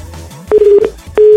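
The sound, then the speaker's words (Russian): Telephone keypad tones sound as a number is dialed: two steady electronic beeps, the first held for about half a second and the second starting near the end, both fairly loud against a quiet background. “Вот сейчас я набираю Леонида.”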